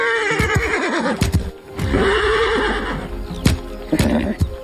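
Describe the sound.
A horse neighs during a troubled training session on a pasture ranch, two long wavering whinnies rising and falling in pitch, loud and clear, with sharp knocks and thumps scattered between and after them.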